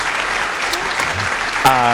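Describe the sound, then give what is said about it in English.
Crowd cheering and applauding, a steady wash of clapping with a voice calling out loudly near the end. “Hang on, I've got the crowd.”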